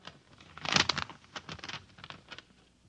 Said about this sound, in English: Now I open the envelope.